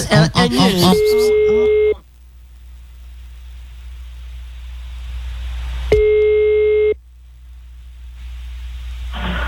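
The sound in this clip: A telephone call tone plays as a call is placed: a steady mid-pitched tone lasts about a second, then a long silent gap, then the same tone again. A voice speaks briefly just before the first tone.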